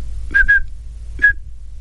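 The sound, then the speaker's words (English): A person whistles an imitation of 2600-hertz phone-dialing tones for area code 212, giving two short, clear, high pulses, a pause, then a single pulse, each steady in pitch over a low hum. “So as an example, if you wanted to dial a call in New York, which let's say starts with area code 212, you would send pulses of 2600 hertz that would sound something like this.”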